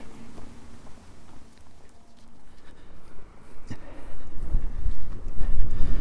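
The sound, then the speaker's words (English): Strong wind blowing across open fields while someone walks, heard as a low buffeting rumble on the microphone that grows noticeably louder and gustier toward the end. “I've left the road and I'm now walking down through fields where the wind has picked up quite a bit.”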